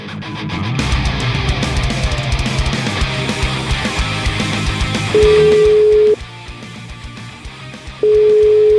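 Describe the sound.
A telephone dial tone while a call is being placed: after several seconds of dense background sound, a steady electronic tone sounds twice, the first about a second long, then a pause, then the second running to the end.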